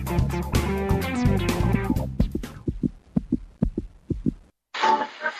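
A heartbeat sound effect of low, paired thumps in a steady rhythm, following a loud burst of music and ending in a brief gap before a short hiss of noise.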